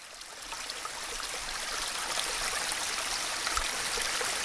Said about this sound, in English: This is just going to play for a little bit. Some of you would enjoy this, just out by a stream, a little warmer than what today is, of course.